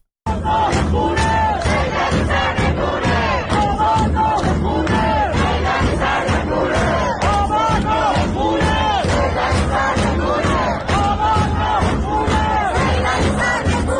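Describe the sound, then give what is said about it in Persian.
A large crowd of protesters chants slogans in Sadeghieh, Tehran: a massive, loud chorus of voices shouting in unison, repeated phrases rising and falling without pause. “تصاویر منتشر شده هم تعداد زیادی از معترضان رو نشون میداد که خیلی هم شعارهای مصممانه ای سر میدادن. از جمله حتی در این صدای این ویدیو از صادقیه تهران میتونیم ببینیم که از همین صدا هم تعداد معترضان بسیار زیاده.”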